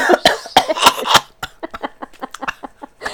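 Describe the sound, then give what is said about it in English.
A wet, phlegmy cough from a person with mucus caught in the throat: a handful of loud, harsh coughs come first, then many quicker, quieter hacking throat sounds. “That failed. Are you okay? That was unexpected, like, phlegm in my throat.”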